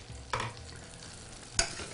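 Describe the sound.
Fish skin frying skin-side down in oil, pressed flat against the pan to crisp: a faint, steady sizzling hiss broken by two sharp crackles, with no talking.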